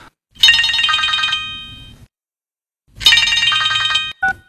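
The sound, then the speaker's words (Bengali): A telephone bell rings in two long bursts separated by a short silence, each burst bright, loud and rattling, with no one talking over it. “না না না, phone ধরবে না।”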